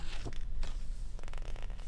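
Papery rustling as book pages are turned by hand. Brief swishing flicks come in a few quick bursts over a low, steady background.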